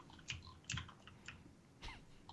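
Faint clicking of a computer keyboard as someone types on an unmuted call, with a few scattered, soft key strikes at an irregular pace and no voices.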